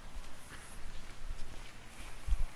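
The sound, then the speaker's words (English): Soft, muffled footsteps walking forward on a yoga mat during a yoga class, a few low padded thuds at an uneven pace, the last ones a little heavier. “Walk forward to the top of your mat.”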